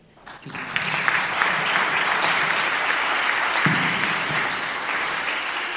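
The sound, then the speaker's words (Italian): Warm, sustained applause welcoming a speaker: dense clapping from an audience that swells within the first second, holds steady and eases slightly toward the end. “Bahia Labub, dopo di lui, viene accolta con un applauso caloroso e sincero.”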